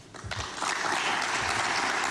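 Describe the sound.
Applause for footballer Eduardo Camavinga at his Real Madrid presentation: a few low thumps open, then dense clapping swells in and holds steady and loud to the end.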